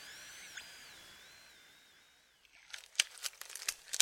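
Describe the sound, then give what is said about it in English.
Thick dough being kneaded by hand gives a burst of sticky, squelching crackles and soft tearing noises, many irregular bursts packed into the second half after a quiet start. “Oh man, this dough! Yeah, I know, it's so thick, isn't it? Oh, my fingers are... Ah! I know, it's like, it won't yield.”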